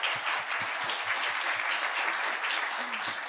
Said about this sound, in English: I want to give a round of applause for both Dave and Yun